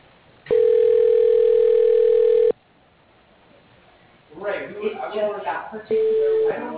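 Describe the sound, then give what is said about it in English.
A telephone ringing tone plays while a call is transferred to voicemail: one long, steady, loud ring of about two seconds, then a pause. A recorded voice follows, ending in a short steady beep tone. “Would you like me to transfer you to his voicemail? Sure, I guess we could do that. Okay, I'll do that.”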